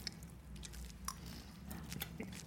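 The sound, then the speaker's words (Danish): Faint chewing as people taste a dish with mozzarella, parmesan and basil: soft, irregular wet clicks and small crunches over a low, steady hum. “Lad os smage på øh, maden.”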